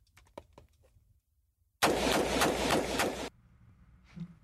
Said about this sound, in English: If I wanted to fire this on full semi-automatic, all I do is keep firing. Now I won't probably hit the target when I do this. When we look at the target later on, but I'm going to fire about five shots.